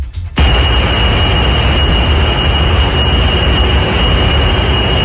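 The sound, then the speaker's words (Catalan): A data centre in the United States gives off a loud, steady mechanical roar with a thin high whine on top. It cuts in abruptly after a brief quieter moment and then drones on unchanged. “Aquest és el so d'un centre de dades als Estats Units.”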